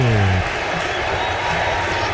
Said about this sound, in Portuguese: E a torcida chama o Hendrick aqui na arquibancada do Lincoln Financial